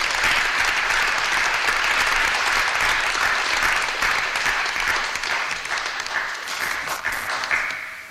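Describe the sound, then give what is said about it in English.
Church audience applause at a glory meeting: hearty, dense clapping that holds steady and loud for several seconds, then gradually thins and softens toward the end. “Give them a hearty clap.”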